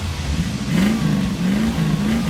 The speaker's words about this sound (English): An engine is revving. The headlights are coming.